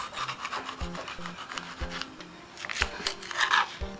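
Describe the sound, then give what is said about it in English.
Knife cutting a pepper into thin slices with a dull blade. Rough rasping, sawing strokes repeat throughout, marked by a few soft, low thuds. “You don't want the seeds. Cut the pepper in half.”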